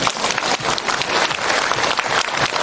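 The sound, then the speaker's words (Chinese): Audience applause: a loud, dense, continuous roar of many hands clapping throughout. “鼓掌”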